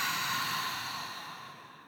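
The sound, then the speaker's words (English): A deep exhale during a breathing exercise: one long, airy, breathy rush of air that gradually fades over about two seconds, with no talking. “So inhale with me. Ready? And exhale.”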